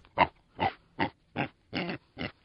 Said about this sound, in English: Pigs snuffling around in the mud, it's good for them?